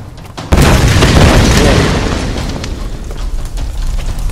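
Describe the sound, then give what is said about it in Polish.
A loud explosion bursts in suddenly, then gives way to a dense, roaring rumble with crackling debris that slowly weakens over several seconds. “Czy zawsze wszystko musi wybuchać?”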